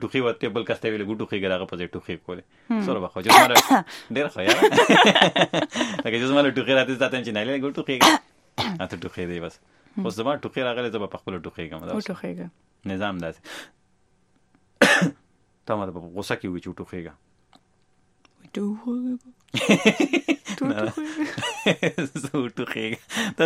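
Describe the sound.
A person coughing and clearing their throat between long stretches of talking, with a few harsh, rough bursts and pauses in between.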